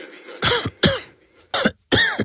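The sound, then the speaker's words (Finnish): Four harsh, dry coughs from one person, each a short explosive burst separated by brief pauses, loud and alone. “älä suotta köhi”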